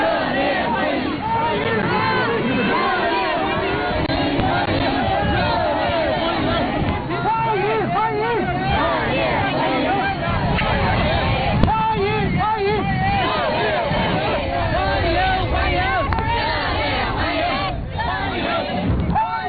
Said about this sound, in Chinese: 华侨华人和留学生代表聚集在道路两旁，挥舞中美两国国旗，热烈欢迎习近平主席到访。